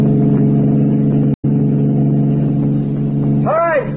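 A car engine drones during a radio drama chase, a steady, loud mid-pitched hum that runs throughout with one brief cut near the middle.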